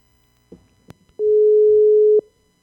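A single steady telephone tone lasting about a second sounds after a dropped call, preceded by a few soft clicks and thuds, then silence.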